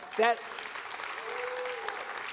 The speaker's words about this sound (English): that applause should all be for Audra.